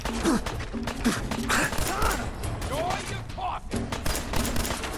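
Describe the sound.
Rapid gunfire in a shooter video game comes as many sharp shots in bursts throughout, mixed with other game sounds and a voice heard briefly.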